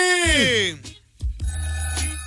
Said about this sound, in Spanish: Se oye bien mamila ese teléfono.